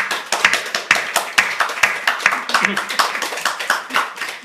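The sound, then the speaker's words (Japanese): Applause from a church audience during a service, right after baptism certificates are handed out: many distinct, sharp hand claps in a loose, uneven patter that runs throughout at moderate loudness, with some voices mixed in. “じゃあ皆さん拍手を持って”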